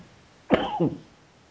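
A single short cough: one harsh, breathy burst that breaks into a quick second pulse before fading, heard alone against a quiet background.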